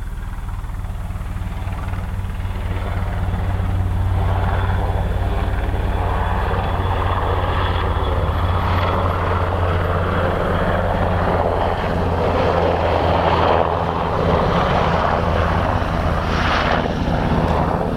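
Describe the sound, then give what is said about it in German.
An army helicopter flies low past a small village, its rotor and engine making a loud, steady drone with a deep throbbing hum that lasts the whole clip. No voices are heard. “Oh, ein Armeehelikopter.”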